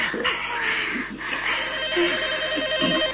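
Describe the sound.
A telephone rings with a repeating electronic trill, fairly loud, alongside other muffled sounds and brief vocal noises.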